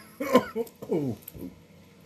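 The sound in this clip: Coughing from someone whose food or drink went down the wrong way, a few harsh, throaty coughs in quick succession, loudest at the start, then trailing into softer throat sounds.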